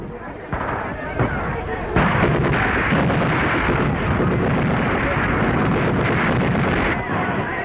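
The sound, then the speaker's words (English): Dense gunfire from German snipers on the roof of Notre Dame, a loud, steady barrage of many sharp cracks over a continuous roar that lasts throughout. “German snipers open up on the roof of Notre Dame.”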